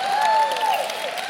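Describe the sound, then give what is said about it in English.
A large church audience in a 2,000-seat room claps for people who have been baptized. The applause is steady and dense, with a sustained tone sounding over it. “And all the people clapping are the people who have already been baptized.”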